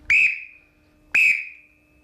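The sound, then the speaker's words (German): Two sharp, shrill blasts from a small black trill whistle blown to start rowing sprints. Each is a high, piercing tone about a quarter second long that trails off, and about a second of quiet separates them. “Und dann bin ich mit der Pfeife ran und habe die Sets angepfiffen.”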